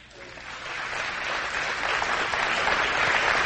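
Applause from an audience welcoming a co-pastor swells from a quieter start into full, dense clapping that grows steadily louder over a few seconds.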